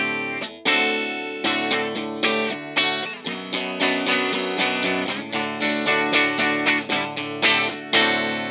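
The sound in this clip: A Mexican-made Fender Offset Special electric guitar is strummed in rhythmic chords through a distorted, effects-laden tone. Many sharp attacks ring into sustained, buzzy chords.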